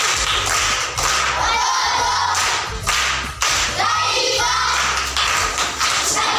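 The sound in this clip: Applause for all the participants at a primary school: loud, dense clapping mixed with thumps and crowd noise, with brief dips between bursts.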